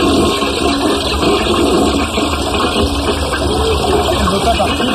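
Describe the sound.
A toilet flushing, a loud, steady rush of water that holds at an even level for the whole five seconds without a clear break.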